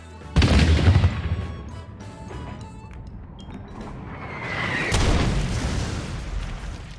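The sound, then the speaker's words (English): An explosion blows up a gingerbread army in a tabletop dice game: two heavy booming blasts with rumbling decay, one near the start and another about four and a half seconds later, with crackling between them. “So you blow up about half of the army on the left side. Just splinter them and cookie pieces fly everywhere.”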